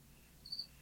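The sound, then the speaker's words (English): Cricket chirping in a studio, a single brief, faint, high-pitched chirp made of two quick pulses over a low, steady background hum. “I'm laughing because there's a cricket in the background.”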